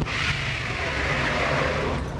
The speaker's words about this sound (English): What was that? That was the sound of smoke being made from the tires.